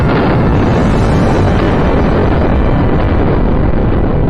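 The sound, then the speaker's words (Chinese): A hydrogen bomb explosion: a loud, steady roaring rumble that runs through the whole clip, dense and heavy in the lows, with no separate bursts. “氢弹爆炸成功了，爆炸成功了！ 轰隆的巨响下”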